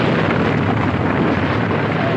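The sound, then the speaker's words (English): An explosion roars as a clearing collapses into the cavern beneath it. It is a loud, dense rumble that stays steady from start to end, with no separate blasts. “four more shafts erupt like volcanoes. The entire clearing sinks, collapsing into the cavern beneath it. An explosion flares. Smoke billows into the sky.”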